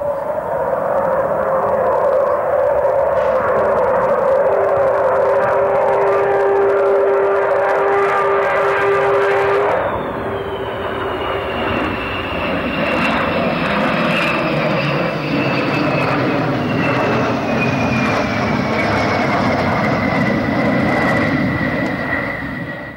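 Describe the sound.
An Avro Vulcan bomber jet flies past with a loud, continuous roar and a strong high whine, which drops sharply in pitch midway as the aircraft passes, then fades into a broad, rumbling engine roar.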